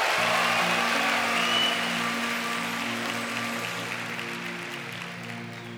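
Audience applause welcoming a singing duet forms a dense, steady wash of clapping that slowly fades, with sustained low musical notes held underneath.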